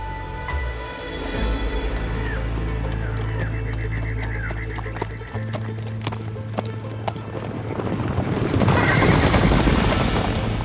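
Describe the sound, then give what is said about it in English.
A horse neighs in shrill, wavering whinnies, then its hooves trot down a road in a steady, even clip-clop that grows busier and louder toward the end. “he mounted his horse and trotted glumly down the road”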